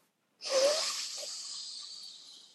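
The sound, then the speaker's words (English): A deep breath drawn in, one long airy inhalation that starts abruptly and slowly tapers off over about two seconds. “All right, let's all breathe.”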